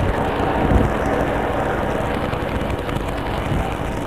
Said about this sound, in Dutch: Dus een helikopter van de Rijkspolitie op het ogenblik. Er zijn er nu twee die boven de panden cirkelen.